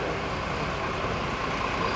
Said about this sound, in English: we've got a massive fire engine coming past us